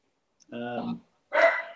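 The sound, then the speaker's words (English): Dogs barking: two separate short vocal bursts with silence around them, the first a tonal, whining yelp of about half a second and the second a harsher, noisier bark. “You can hear my dogs barking, I guess. Is it your dog?”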